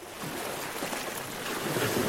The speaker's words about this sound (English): It's dusk on Lesbos and I'm looking across at Turkey. It's just 6 miles, just under 10 kilometres across the sea there.